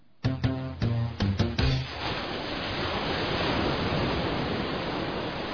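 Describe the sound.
Sea waves make a steady, broad, hissing wash that continues to the end, after a few short tonal musical notes at the start.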